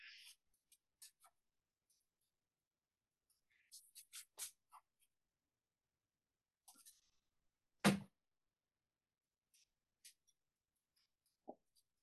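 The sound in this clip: A fineliner pen scratches on paper in faint, scattered short strokes, with small clusters of quick scribbles and one sharper, louder stroke partway through. Quiet pauses separate the strokes.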